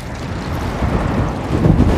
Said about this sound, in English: You feel all that wind? You see all that wind? It's killing me.